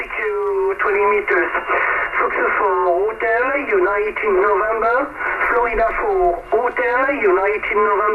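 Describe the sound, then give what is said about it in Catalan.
Old radio voice transmission, with call-sign style chatter in thin, band-limited voices crackling continuously over a low steady hum and carrying a boxy, narrow tone. “Aquest era el so de la ràdio en aquell moment”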